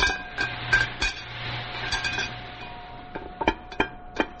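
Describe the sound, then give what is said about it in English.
Metallic clanks and knocks as a submarine hatch is cracked open, a series of sharp, irregular hits over a steady low hum, growing sparser toward the end. “Crack the hatch. Aye, aye, sir.”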